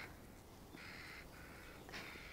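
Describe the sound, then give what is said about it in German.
Seagull calls: a few faint, drawn-out, nasal cries over a steady hiss of background noise. “Möwe. Möwe.”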